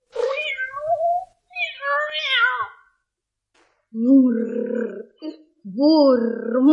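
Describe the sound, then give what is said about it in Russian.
A white fluffy cat meows repeatedly, several drawn-out, wavering meows separated by short pauses, some high and whiny, others lower and throatier. “вот хотя бы вот этот белый пушистый кот, что проскользнул сейчас в комнату.”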